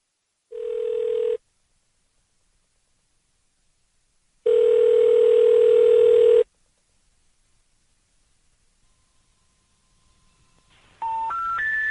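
Telephone line tones on a call to a number that is not in service: two steady low tones separated by silence, then three short rising notes at the end.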